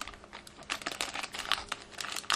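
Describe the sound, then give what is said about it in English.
Quiet crinkling of a plastic bag of basmati rice being cut open, a quick series of crisp clicks and rustles with no voices. “I'm taking this bag out of the box. And I'm going to cut the bag open.”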